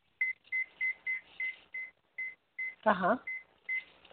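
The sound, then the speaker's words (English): Steady electronic beeping: many short, high, identical beeps at an even quick pace, moderately faint, with one brief voice sound cutting in partway through. “So just ignore the beeping. Can you hear it?”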